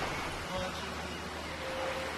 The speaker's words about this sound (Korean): 거친 바람과 거센 파도만이 주인인 겨울 동해바다.